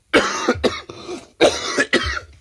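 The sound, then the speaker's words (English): Harsh, forceful coughing in two clusters of several hacking bursts, fairly loud and close together, with no talk around it. “My apologies, too, if I'm coughing in anybody's ear or anything.”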